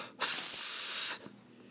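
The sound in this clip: A voice imitates an ostrich's warning hiss: one sustained, breathy hiss that lasts about a second, loud and alone, then stops abruptly.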